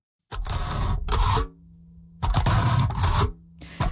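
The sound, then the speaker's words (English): A fork pokes through aluminum foil in crinkly, rasping scrapes that come in pairs of bursts with short quiet gaps between them, and another burst begins at the end. “So that's the sound of a fork poking through aluminum foil.”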